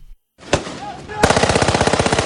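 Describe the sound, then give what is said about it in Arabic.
Gunfire at an Israeli army checkpoint: a single sharp shot, then a rapid automatic burst of many loud, evenly spaced shots. “هذه واحدة من أكثر من 40 عملية إطلاق نار على حواجز جيش الاحتلال”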